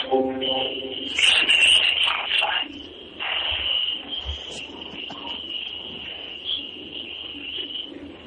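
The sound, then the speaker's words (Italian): Crickets chirping in a steady, high, continuous trill that runs through the whole clip, with voices talking over it. “ma che è? C'è grilli?”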